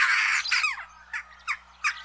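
Jackdaw calls ring out as short, sharp squawks: a longer opening call followed by a few brief, spaced calls, each clear and loud against an otherwise quiet background.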